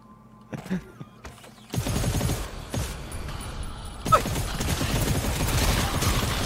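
Gunfire from a deployed turret in a video game: a few isolated sharp hits, then sustained dense rapid fire that continues to the end, with a louder burst partway through.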